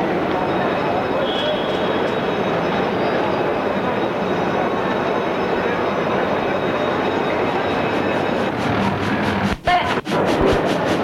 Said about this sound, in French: Le train commence à partir. Il sort de la gare.